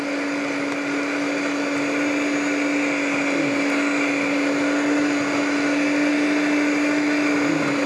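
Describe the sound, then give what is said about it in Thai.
An electric mixer whips cream with a constant motor whine and a strong steady hum that holds unbroken throughout, with no talk. “คนนึงจะตีไปเรื่อยๆแล้วเดี๋ยวอีกคนนึงก็จะเติมสารสำคัญลงไปเดี๋ยวอาจารย์ตีไปเลย”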